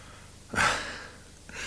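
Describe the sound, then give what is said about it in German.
Breathing in through flared nostrils with eyes closed, as if sniffing for the scent of violets. One strong, airy nasal inhale is followed by a quieter pause, then a softer second intake begins just before the end. “Bitte gehorsamst die Augen zu schließen und durch geblähte Nasenflügel zu atmen.”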